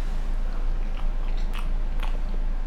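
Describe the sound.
Biting into and chewing the soft cream filling of a biscuit, a few moist, crackly mouth sounds over a steady low hiss, with two brief sharper bursts near the end.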